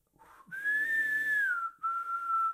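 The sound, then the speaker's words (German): A man whistles a few bars of an operatic tenor aria, a clear, airy and sustained melody with a long held phrase that gently curves in pitch, a brief break, then a second steady tone. “Sein wohltönendes Pfeifen klingt wieder auf, fein mussiert, sehr luftreich prustend”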